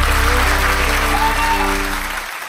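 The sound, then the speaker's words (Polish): Applause from an audience at a live Polish radio event: dense, continuous clapping that holds a steady loud level, then thins and fades away near the end. “wielkie brawa”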